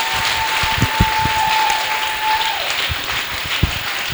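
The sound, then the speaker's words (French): A church audience claps during a worship song, a dense, loud patter of many hands with scattered sharper claps, while a steady high tone runs beneath the first half. “Acclamons notre Seigneur. Let's clap for our Lord.”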